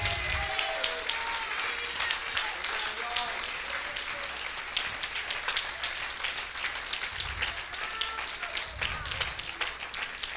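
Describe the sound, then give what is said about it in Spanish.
Congregation applauding in church, a dense, steady wash of clapping that fills the whole clip, with voices mixed in beneath it. “¿Cuántos pueden darle un aplauso a Cristo en esta hora?”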